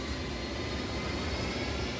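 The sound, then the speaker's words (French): A toy rocket, built at home with a little brother, starts up with a loud, steady jet-like roar that holds evenly throughout without a break. “Alors voilà, on a construit une fusée. Avec mon petit frère. Là, je démarre la fusée.”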